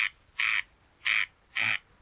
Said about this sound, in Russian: а это чей голос? Так кричит карастель-дергач.